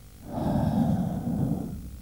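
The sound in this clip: A person breathes out at a doctor's request during an examination: one long, steady, breathy exhale lasting well over a second, soft and airy with no talk over it.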